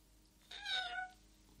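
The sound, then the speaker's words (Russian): A small kitten meowing as it crawls out from under newspapers in a room: a single short, thin, high mew, faint and alone. “Из-под газет вылезает маленький котенок.”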